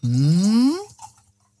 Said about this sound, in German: deswegen schenken wir uns erstmal ordentlich einen ein. So, einmal die Gläser bitte zu mir.